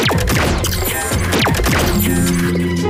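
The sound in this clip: A vehicle switching into climbing mode makes a loud mechanical transformation, with clanks and heavy hits over sweeping whirs that run continuously and settle into held, ringing tones near the end.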